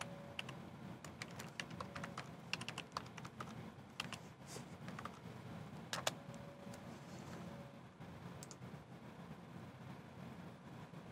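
Rapid, irregular clicking of keystrokes on a computer keyboard as a new folder name is typed. Many sharp taps run steadily over a low constant hum, with a few louder strokes standing out.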